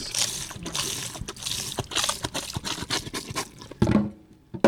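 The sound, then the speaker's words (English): Whiskey and rum poured from plastic bottles down a kitchen sink: a steady splashing, gurgling trickle with uneven surges that runs for several seconds. “Down the kitchen sink goes booze that never made it to customers in local option communities.”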